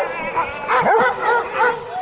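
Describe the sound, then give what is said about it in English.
Sled dogs at a rural Duluth home barking and yipping: a cluster of excited, high, whining yips and cries from several dogs overlapping in uneven bursts, loudest in the middle. “Mark Black keeps 36 over-energized dogs and pups at his rural Duluth home.”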